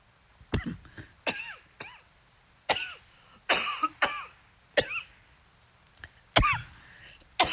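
Repeated coughing from a person with something caught in the throat, many sharp, loud bursts in an irregular rhythm with short pauses between, some rough and throat-clearing, and no speech.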